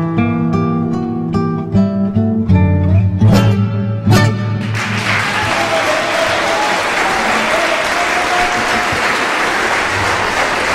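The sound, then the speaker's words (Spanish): Enthusiastic audience applause for a live folk duo takes over as the last strains of their music end, a dense, steady clatter of clapping that holds evenly for about six seconds with no voices over it. “Los aplausos más que merecidos para este dúo que interpretaba de Marciali, los obreros de Morón, Juan Falú y Jorge Marciali.”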